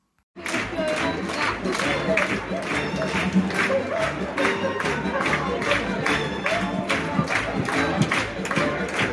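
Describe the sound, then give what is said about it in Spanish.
An audience of children applauding in a packed theatre, their clapping falling into steady, rhythmic unison beats. The applause starts suddenly and stays loud and sustained, with crowd noise mixed in. “Oís los aplausos, ¿no? Es la gente menuda que viene pisando fuerte”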